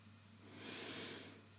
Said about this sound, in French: Rétention. Et on expire à droite en relâchant le bras gauche.